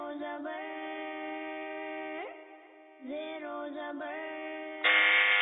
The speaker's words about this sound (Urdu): ایک بار پھر بزر پہلے بجائی ہے